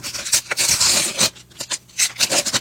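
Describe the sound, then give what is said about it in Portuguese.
A packet of World Cup stickers being torn open: crinkly, papery rips and rustles in uneven bursts with short pauses, with no voices. “Ah, rasgar o pacotinho e abrir as figurinhas da Copa do Mundo.”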